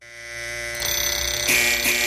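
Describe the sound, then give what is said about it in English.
A snooze alarm rings with a steady electronic tone that swells in, then turns into a rapid pulsing buzz, growing slightly louder and brighter toward the end. “That's your snooze alarm. Time to get rolling, everybody.”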